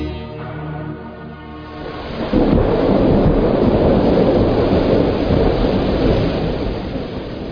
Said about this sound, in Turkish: Hava da amma bozdu. Çok yağmur yağıyor.